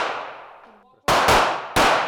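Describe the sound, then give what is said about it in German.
Pistol shots on an indoor shooting range, fired at targets about ten meters away: the fading tail of one shot, then three sharp, loud bangs, two in quick succession and a third shortly after, each with a ringing decay. “10 Schüsse pro Durchgang darf jeder abgeben, auf eine Entfernung von gut 10 Metern. Dann schieben die 5 ihre Pistolen zurück in die Holster.”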